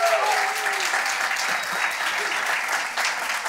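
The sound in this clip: Audience applause welcoming a speaker to the stage, a dense, steady wash of clapping that stays fairly even in loudness across the few seconds.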